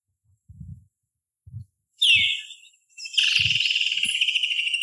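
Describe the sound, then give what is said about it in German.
A Woodland Kingfisher calls in a bird guide recording: a brief high note, then a long, rapid, pulsed trill that carries on to the end. Soft low thumps sound alone before and between the calls. “Ja, das ist der Woodland Kingfisher.”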